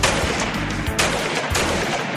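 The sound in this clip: Gunfire at a shooting range: loud, dense shots that overlap into an almost continuous rattling burst, with no voices.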